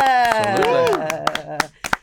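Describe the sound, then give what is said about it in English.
Audience applause welcoming a team's manager and fullback: scattered sharp claps under a loud voice that rises and falls in a whoop, with crowd noise around it. “Without further ado, lads, huge round of applause and welcome for Rick and Rebecca.”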